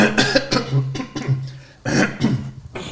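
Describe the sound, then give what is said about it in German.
A game master clears his throat during a tabletop role-playing session, producing a few rough, rasping bursts that trail off, then a fresh, louder rasp near the end. “Der Spielleiter räuspert sich.”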